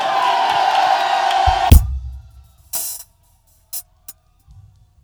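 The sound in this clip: A church audience shouts and cheers in a loud, sustained roar that cuts off abruptly, followed by near silence broken by a few short, sharp noises.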